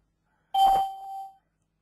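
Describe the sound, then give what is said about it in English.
A single small bell-like chime rings out once from a two-computer setup, a bright clear tone that strikes sharply, sustains briefly and fades, heard alone against silence. “Little bells are going off”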